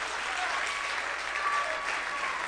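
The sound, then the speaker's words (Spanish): Church audience applauding during a service, a sustained, even wash of many hands clapping, fairly soft and steady throughout with no voices standing out. “Dale un aplauso grande a Cristo, que Él se lo merece.”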